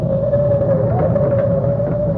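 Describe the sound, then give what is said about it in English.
Wind rising before a storm, a steady, loud whistling howl over a low rumble that runs unbroken throughout, its pitch wavering briefly midway. “Oh, the wind is coming up. Look at those leaves sailing by.”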